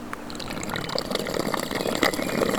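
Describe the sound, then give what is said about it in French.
Spring water welling up between rocks: a faint, steady trickle and gurgle with small bubbling splashes that grow slightly busier toward the end. “Une résurgence d'eau”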